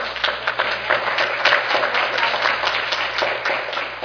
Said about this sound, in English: let's give them an applause